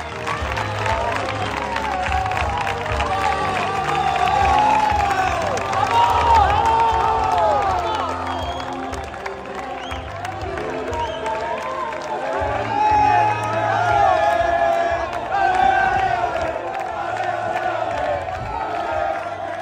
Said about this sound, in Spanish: Estos son los sonidos de la victoria del Antequera Club de Fútbol